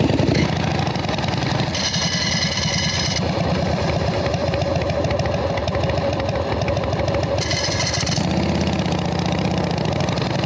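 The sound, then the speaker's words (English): A motorcycle engine runs steadily at low revs, a continuous mid-pitched rumble with a rough, pulsing texture that stays even in loudness from start to finish. “the bike is leaned to the left. When I wanna take off, I'm gonna shift my weight onto my right side, put my right foot down, and I'm gonna shift into first gear. Looks like this. And we're off.”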